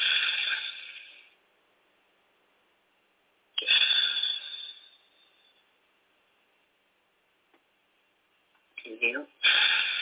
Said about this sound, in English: I'm just going to sit here and breathe by myself.